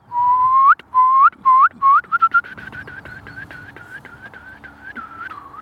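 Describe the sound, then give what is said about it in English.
A person whistles an imitation of a curlew call: a few clear rising whistled notes, then a rapid bubbling run of short repeated notes. No other sounds. “But he also, as we know, he did this curlew sound.”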